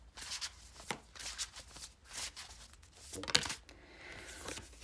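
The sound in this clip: Cards from an oracle deck being handled and one drawn: a run of quick, papery riffles and flicks, fairly soft, with a sharper snap of card stock near the end and no voices over it.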